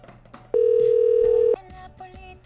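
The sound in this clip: A telephone call ringing out on the line: a single steady electronic ring tone lasting about a second, loud against faint background noise.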